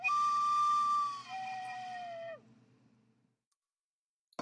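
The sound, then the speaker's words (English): A whistle blown as a signal to cut to advertisements: one sustained, fairly loud steady tone that steps lower, then slides down and stops, followed by near silence and a brief click at the end. “And that's my whistle. Wait, that is my whistle, meaning we have to play advertisements to make money for Nick the Rat Radio.”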